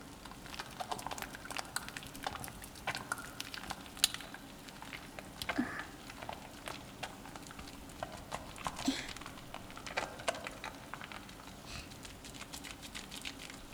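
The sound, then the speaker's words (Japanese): Foam being lathered between the hands makes soft, wet squelching and fine crackling, a steady run of many small clicks and pops, faint and without talk. “これを手の中で泡立てて、”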